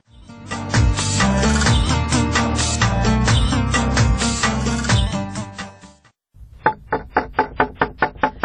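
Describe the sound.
Knocking on a door that will not open: a quick, even run of sharp raps follows a loud, dense tonal passage that cuts off abruptly.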